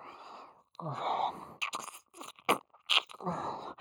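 A tongue licks inside an ear with wet, smacking mouth sounds, soft rustling swipes and a few sharper clicks, quiet and close, with no speech.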